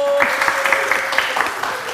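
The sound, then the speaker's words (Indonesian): Audience applause welcoming two performers onto a stage: a short, fairly loud burst of dense, even clapping that holds steady for the full two seconds. “Oke, saudara-saudara beri sambutan yang meriah untuk Bastian Steele dan Sita Marino.”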